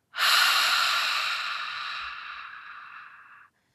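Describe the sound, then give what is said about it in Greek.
A long, steady breath exhaled through the mouth during a guided relaxation breathing exercise, a smooth airy hiss lasting over three seconds that slowly fades before stopping, heard alone. “Τελευταία φορά εισπνοή από τη μύτη. Εκπνοή από το στόμα.”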